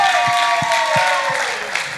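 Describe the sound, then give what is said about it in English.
Applause for camp leaders and organizers: a crowd claps and cheers at a fairly loud, steady level, with a high whooping voice sliding downward over the clapping before it eases slightly at the end. “So I'd just like everyone to give a round of applause for our camp leaders and organizers.”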